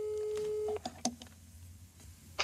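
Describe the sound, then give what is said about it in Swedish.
Telephone ringback tone heard while a call is being placed: a steady, clear tone that holds for under a second and then cuts off, followed by a few faint clicks. “Vi ringer Anneli Rydé.”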